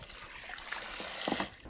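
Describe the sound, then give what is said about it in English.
Water trickles at a hair salon, a soft continuous wash of liquid noise with faint bubbling splashes, quiet and steady throughout the brief moment. “The sound you're hearing is the sound of water. What a soothing way to start an interview at Heaven on Earth Salon.”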